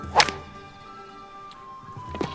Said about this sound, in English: The white-haired man wiggles his backside, pulls the club back, and flips it at the top of his backswing.